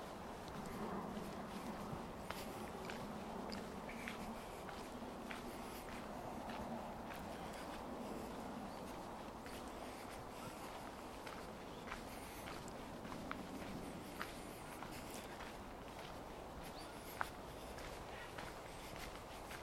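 Footsteps on a walk by a lake, a steady stream of many soft crunching steps at an even walking pace, continuous throughout.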